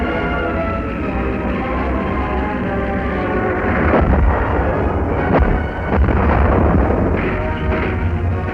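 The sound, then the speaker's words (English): Heavy explosion as a French tank is hit during the German blitz advance across the Somme: a loud, dense rumbling roar with a couple of sharper booming bursts standing out partway through. “A French tank is hit.”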